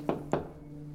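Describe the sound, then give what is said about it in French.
Two quick knocks on a door, firm and evenly spaced a quarter second apart, followed by quiet with a low steady hum. “Après une pause devant la porte, Lila frappa.”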